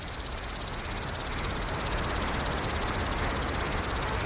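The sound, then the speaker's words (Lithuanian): Grasshoppers chirping in summer heat: a dense, high continuous trill with a fast, regular pulse that stays steady and unchanging throughout, with no voices. “Taip, iš tikro, dabar žiogų metas. Tai ypatingi vabzdžiai, jiems reikia karščio, o mums ramaus oro, kad girdėtume jų treles.”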